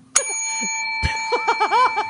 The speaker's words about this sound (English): Right out of the gate, we've got the bell.